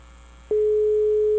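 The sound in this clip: A telephone ringback tone sounds while a call is being placed: a steady, pure mid-pitched tone starts abruptly and holds unbroken to the end over faint background hiss.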